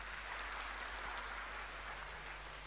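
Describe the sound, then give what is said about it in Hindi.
An audience gives a continuous round of applause to welcome a respected senior guest at a gathering, a faint, even wash of many hands clapping together throughout. “पहले तो हम सभी आदरणीय भ्राता जी का करतल ध्वनि से स्वागत करेंगे।”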